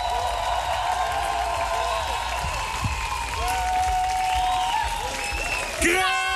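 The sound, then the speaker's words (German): Audience applause at an evening live music show: steady, dense clapping and crowd noise throughout, with voices and sustained tones over it and a brief louder swell near the end. “Einen großen Applaus nochmal. Könnt ihr nochmal laut sein?”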